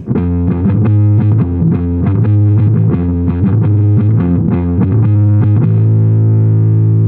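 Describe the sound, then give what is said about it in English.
A band plays a song through a fuzz pedal, the guitar heavily distorted and loud, with rhythmic chugging chords that end on a long held, buzzing chord. “There you go. With the fuzz pedal.”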